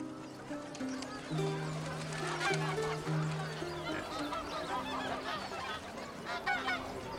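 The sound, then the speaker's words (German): Geese honk and cackle at a market in a historic old town. Several nasal honks come in a loose, irregular run, fairly quiet, with an uneven bustle underneath. “Hören Sie die Gänse schnattern?”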